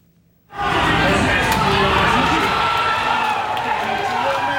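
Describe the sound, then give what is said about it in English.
Fans erupt in loud cheering for Mexico's first goal, which is also the opening goal of the 2026 World Cup. A sudden roar of shouts and whoops bursts from near silence and holds at a steady, dense level to the end. “That's the sound of Mexico's World Cup soccer team scoring its first goal, and the first goal of the 2026 World Cup.”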